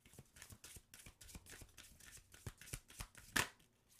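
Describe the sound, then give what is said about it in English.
A card is drawn from a deck amid many quick, crisp papery flicks and snaps in a quiet, uneven rhythm. One sharper, louder snap stands out near the end. “All right, so let's see what we have here. Let's get a card. I just need one.”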